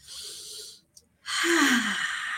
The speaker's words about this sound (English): As always, inhale the positive, exhale the negative. Should we do it?